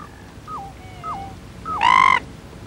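A pheasant-tailed jacana father gives his warning call: a few faint, downward-slurred whistled notes, then a louder, harsh, nasal call with rich harmonics near the end. No voices are present.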